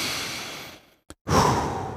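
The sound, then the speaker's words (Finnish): A small, deliberate breath drawn in after a song on a morning radio program. A soft airy rush follows a brief moment of silence, then swells and lingers. “Tuon kappaleen jälkeen on hyvä ottaa semmoinen pieni sisäänhengitys. Teetkö sen kanssani?”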